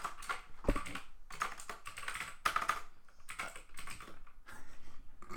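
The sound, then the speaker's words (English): Quiet typing on a computer keyboard: many soft, clattering keystrokes in irregular bursts with brief pauses, and no talking. “I can't type if the mic is that close, man.”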